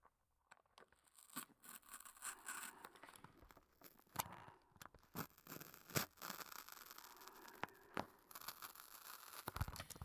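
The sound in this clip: Snipping cuts alternate randomly between left and right: many crisp, sharp clips at irregular intervals, quiet and without voices.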